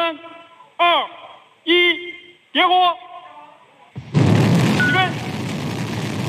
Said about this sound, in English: A rocket blasted into orbit with 3 astronauts on board.